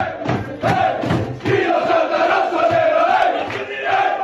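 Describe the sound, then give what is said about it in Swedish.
Inter players sing and cheer together in their locker room after a win over Atalanta, a loud group chant of sustained voices with shouts running through the whole stretch. “Det var alltså Inter som sjöng och jublade, och det kan ju kännas nästan lite överdrivet för en seger mot Atalanta.”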